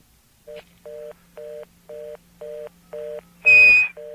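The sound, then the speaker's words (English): Touch-tone keypad beeps from a calling-card call placed through an AT&T operator line: a run of short, evenly spaced beeps of equal pitch, broken near the end by a louder, harsher burst of noisy tone. “It didn't go through that time, so I did a pound, and you can dial another number.”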